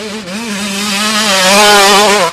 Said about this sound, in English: Does your bike sound like this?